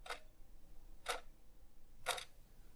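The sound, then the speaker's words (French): Three sharp ticks from the second hand of a kitchen wall clock, evenly spaced about one second apart. Each click is brief and crisp against a quiet background. “c'est le bruit de la trotteuse de la pendule de ma cuisine.”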